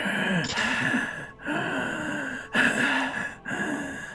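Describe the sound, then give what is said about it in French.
Heavy, rasping asthmatic breathing from a small figure inside an oversized suit of armour. Four drawn-out breaths come in a steady rhythm, each separated by a brief pause. “quelqu'un qui semble être trop petit pour la taille de l'armure qu'il possède respire un asthmatique pris dans une boîte de conserve”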